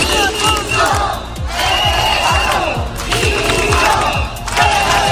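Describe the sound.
A crowd of about two or three hundred protesters chanting in a city square: loud, dense massed shouting that keeps up for the whole clip, with a steady pulsing rhythm of cries and no single voice standing out.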